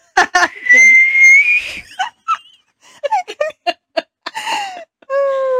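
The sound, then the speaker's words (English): A voice imitates a whistling tea kettle of boiling water: a long, high, piercing whistle that rises slightly in pitch, then a run of short vocal bursts, and a second steady whistled tone at the end. “imagine the screech of boiling hot water. Like, at the coffee shop. At a tea kettle, yeah.”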